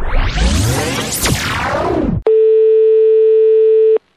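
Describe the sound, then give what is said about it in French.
A steady telephone line tone sounds while calling a friend, one unbroken, even tone holding for under two seconds. It follows a loud burst of sweeping, whooshing sound and then cuts off abruptly. “On va essayer donc d'appeler une de tes amies.”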